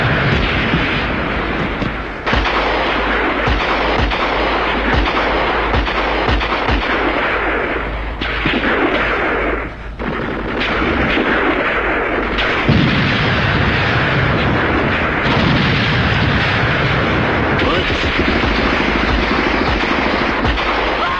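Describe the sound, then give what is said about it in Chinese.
Artillery fire in battle: a dense, continuous roar of booming blasts and crackling gunfire that stays loud throughout, with a brief dip around the middle. “炮声震地，杀声冲天。”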